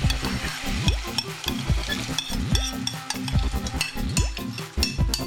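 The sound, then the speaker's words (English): Beans and barley are stirred into sautéed meat and onions in a pot. A steady frying sizzle runs under repeated scraping strokes of a utensil, with an occasional clink. No voices are heard. “After a few minutes of sauteing the meat and the onions, I'm ready to add my beans. And my barley.”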